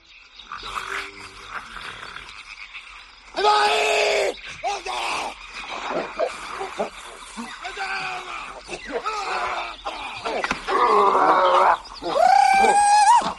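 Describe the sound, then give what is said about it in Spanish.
Roars, groans and screams of prehistoric humans fighting over fire, a dense, loud tangle of growling and shouting voices with shrill screams flaring up in bursts, one rising in pitch near the end. “Bueno, este es el sonido de nuestros ancestros luchando por el fuego”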